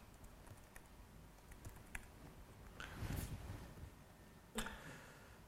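Faint typing on a computer keyboard while renaming a file: scattered soft key clicks with a few sharper taps and a brief busier patch of keystrokes.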